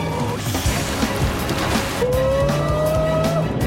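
A motorboat engine roars as the boat surges forward through the water, a loud, continuous rough rumble with a thin whining tone that climbs slightly toward the end.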